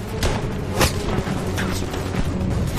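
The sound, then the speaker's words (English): Gunfire and explosions as troops advance along a causeway under enemy fire in battle, with several sharp, booming bursts standing out above a dense, continuous rumble throughout. “Lieutenant Bruce Booker makes trips up and down the causeway to urge men forward under enemy fire.”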